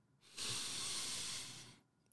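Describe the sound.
A single long breath: a steady, airy hiss that rises abruptly, holds for about one and a half seconds, then tapers off. It is heard alone and is fairly quiet.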